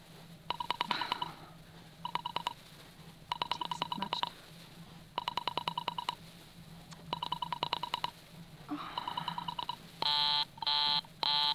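An operator dialing a telephone: several clusters of rapid clicking pulses separated by short pauses, followed by a few longer steady tone bursts at the end.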